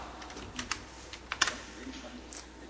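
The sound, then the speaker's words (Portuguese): Typing a file path on a computer keyboard: a few faint, irregular keystroke clicks tap out in quick bursts, with a couple of slightly sharper key presses mixed in. “Aí eu vou digitar o caminho da minha pasta, que eu sei que tem alguma imagem, que é d:// backup/atual.”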